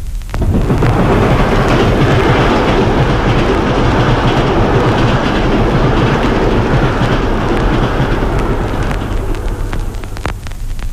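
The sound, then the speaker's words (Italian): A speeding train passing, reproduced in mono: a loud, continuous roaring rumble with heavy low-end weight that holds steady for the whole stretch and tails off only slightly, with no talk. “Lei è abituato ad ascoltare un treno in corsa con la normale tecnica riproduttiva all'incirca in questo modo.”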